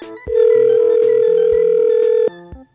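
A ringback tone from an outgoing telephone call sounds as one long, steady mid-pitched beep lasting about two seconds, heard over soft background music.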